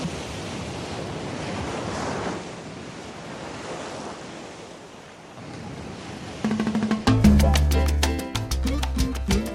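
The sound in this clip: Sea waves open a song's music video with a broad, steady rushing wash for about six seconds, fading briefly before a band's music with bass and percussion comes in.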